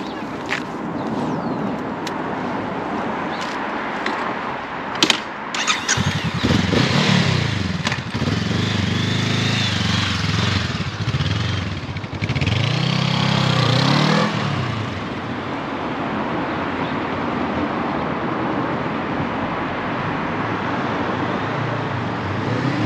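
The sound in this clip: A 2023 Honda CL500 motorcycle is ridden: a steady engine drone with wind rush whose revs climb and fall through the middle section, then settle into a constant cruising hum. No talk is heard.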